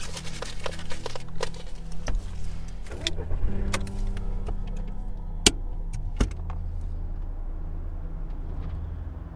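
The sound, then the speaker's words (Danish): Low, steady engine and road rumble of a car driving toward Lisbon, continuous and fairly quiet, with a few sharp clicks and knocks scattered through it. “Okay, vi kører ud til Lissabon.”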